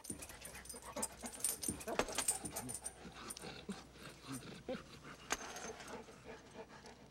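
A dog panting in quick, rhythmic breaths that continue throughout, faint and breathy over a soft background.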